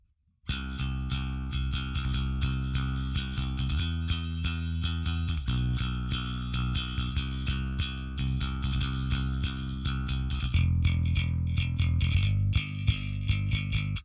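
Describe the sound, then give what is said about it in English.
Bass guitar played with a pick through an SVT 4 Pro amp and an Ampeg 810 cabinet with the compressor switched off: a long, loud riff of many gritty, distorted-edged notes with shifting pitches, played alone. “And so without the compressor, it sounds like this.”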